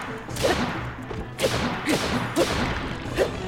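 Swinging a reaper weapon in a video game gives four sharp, airy swooshes at an even pace, each with a soft low thud under it, with no voices.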